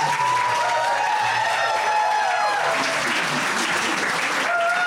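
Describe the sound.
A whole school crowd claps and cheers in a dense, loud, unbroken wash of applause, with raised voices mixed through it.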